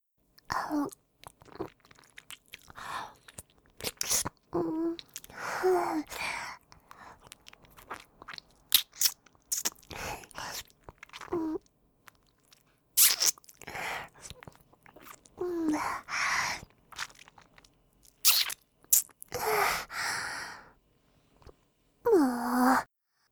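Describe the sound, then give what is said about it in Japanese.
Wet mouth sounds of licking a ring finger: many short, moist smacking and slurping bursts, each lasting a second or two, separated by brief silent pauses and kept fairly quiet throughout. “次は、薬指を舐めてみましょう。”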